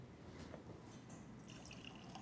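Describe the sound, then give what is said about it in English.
Bordeaux wine sloshing and gurgling in a plain beer-garden-style pitcher, a faint continuous liquid wash with small drips and bubbling gurgles. “It's the kind of pitcher you'd get in a beer garden or something. It doesn't have to be anything fancy. And I'm going to let it slosh and gurgle around.”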